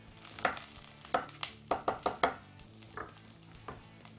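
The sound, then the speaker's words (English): Knife chopping through an onion on a cutting board, a series of crisp, irregular chopping knocks, clustered quickly in the middle and then spaced out, with no talking. “we're gonna put our fingers back when we run through this onion”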